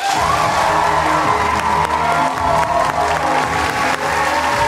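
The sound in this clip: A studio audience cheers and applauds as an author is welcomed onto a talk show, with loud, steady clapping and whoops that hold at full strength for the whole stretch.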